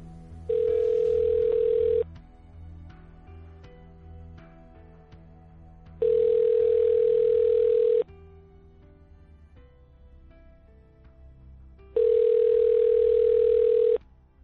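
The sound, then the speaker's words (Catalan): Telephone ringback tone as a woman calls her mother: three steady, even tone bursts of about two seconds each, separated by longer quiet gaps over a faint background. “Truca a la seva mare.”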